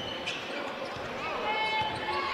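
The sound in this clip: Basketball dribbling on a court during a game, the bounces blurred beneath a dense wash of crowd noise and a commentator's voice.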